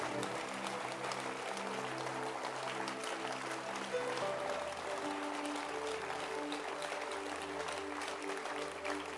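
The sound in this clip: A church audience clapping their hands together: dense, steady, loud applause that runs unbroken for about nine seconds with no clear pauses.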